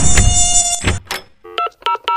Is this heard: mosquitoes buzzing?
yes